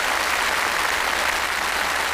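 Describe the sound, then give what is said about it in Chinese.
Audience applause after an academic lecture, thanking the speakers: dense, even clapping that holds at a steady level throughout without any break. “谢谢，掌声再次感谢李教授，也感谢王教授。”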